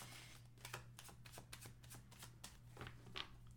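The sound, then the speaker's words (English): Tarot cards being shuffled: many quick, crisp riffling bursts in an even rhythm, faint, over a low steady hum. “All these cards are coming out.”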